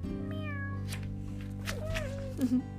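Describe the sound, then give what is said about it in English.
A kitten meowing on a ranch: two faint, drawn-out mews with wavering pitch over a steady low background hum. “meow. I think it's a kitty.”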